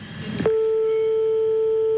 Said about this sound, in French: Ne t'inquiète pas si ça sonne longtemps, hein. C'est normal, à cette heure-ci, ça dort.